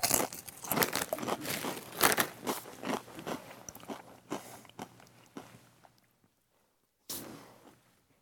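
Crunchy, tangy Doritos chips being bitten and chewed in many quiet, crisp crunches that gradually thin out, then a brief silence before one more crunching bite.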